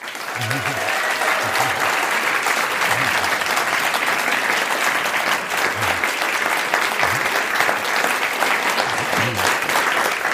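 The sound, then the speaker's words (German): Big audience applause welcoming an astronomer onto a stage: loud, dense, continuous clapping that holds steady for the whole stretch, with a few voices faintly beneath it. “Und ich bitte ihn jetzt zu begrüßen mit einem Riesenapplaus den Astronomen Dr. Florian Freistetter.”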